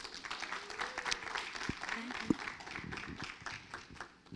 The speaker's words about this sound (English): Let's give her a great hand.